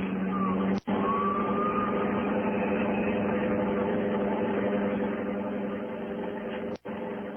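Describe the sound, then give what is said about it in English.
A car engine drones steadily as someone drives off fast while being shot at, a low, even hum without clear revving, and no separate shots stand out. “Hey, they're shooting back. And that's not supposed to happen the way you saw it in the movies, huh? You. Oh, me? Yes, you. Get down. Down on the floor. What are you going to do? Only one thing to do now. Drive like...”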